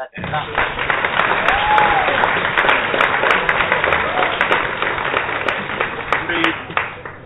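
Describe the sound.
Applause from a crowd of people lined up behind the speaker: sustained, dense clapping that holds at a steady level for several seconds, with some voices mingled in.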